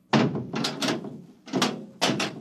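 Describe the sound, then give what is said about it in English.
A hatch slammed shut just before departure: a few heavy, booming thuds with rattling, clattering tails, loud and spaced unevenly, with no voices. “Well, you'll slam the hatch, and off we go.”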